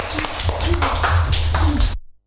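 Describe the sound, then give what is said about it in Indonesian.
Children clap their hands for a classmate after a poem recital. The claps are uneven and sharp over a low hum, with a voice briefly audible, before everything cuts off abruptly at about two seconds. “Oke, tepuk tangan untuk teman kita Vincent.”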